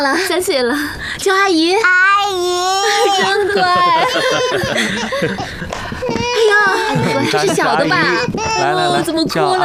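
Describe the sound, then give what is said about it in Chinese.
A small child cries in high, wavering wails that rise and break, loud and insistent, while adults talk over and around the crying. “怎么哭了呢？还小了，认生呢。”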